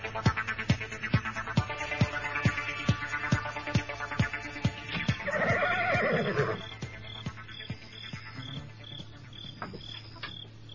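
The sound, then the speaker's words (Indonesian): A somewhat wild horse in a stable lets out a single whinny midway, rising over steady, evenly spaced ticking clicks that run throughout at a faint, constant level. “Nampaknya kuda ini sedikit liar.”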